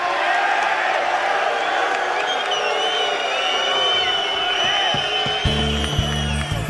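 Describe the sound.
A Turin concert audience chanting stadium-style chants at an Italian singer before he starts to sing: a dense, loud, unbroken crowd roar of chanting voices, with low musical tones entering near the end.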